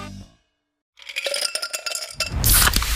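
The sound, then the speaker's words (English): Pepsi Zero Sugar cola can being opened and fizzing: a quick run of sharp metallic clinks and taps, then a loud, steady rush of hiss that carries to the end. “You hear that? That's the sound of Pepsi Zero Sugar, the better tasting, more refreshing Zero Sugar Cola.”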